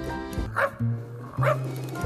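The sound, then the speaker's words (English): A man imitates a dog's bark, two short barking bursts ringing out over steady background music, clear and fairly loud above the melody. “Did you hear me barking on that music?”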